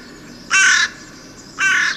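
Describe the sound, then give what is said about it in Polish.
A hooded crow, the grey-bodied crow with black head, wings and tail, gives two loud, harsh caws about a second apart, each rasping and slightly drawn out, with quiet between them and no voices. “dochodzimy do czwartego gatunku, który kracze, ale nie jest czarny, to jest właśnie wrona.”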